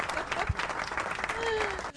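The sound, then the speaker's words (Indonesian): A short burst of applause for a guest, dense clapping that stays steady for a couple of seconds before cutting off at the end. “kita kasih applause dulu dong buat Mbak Ika”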